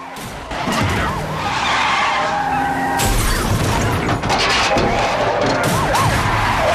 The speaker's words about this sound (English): The squad cars start bashing into him, making the van spin out of control.